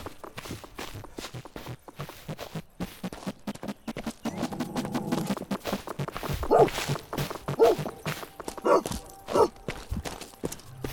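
An aggressive dog in a video game set in 15th-century Silesia gives a few short barks in the second half over steady, continuous footsteps.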